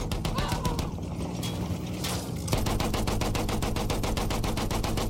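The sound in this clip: A tank's machine gun fires in a video game, first amid a rough, noisy rumble, then as a sustained, rapid, evenly paced stream of loud shots through the second half.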